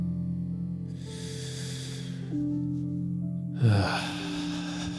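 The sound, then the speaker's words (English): A deep breath is drawn in and then let out. A soft, airy inhale is followed after a pause by a louder, breathy exhale, over steady, low, sustained background tones. “Let's take a deep breath.”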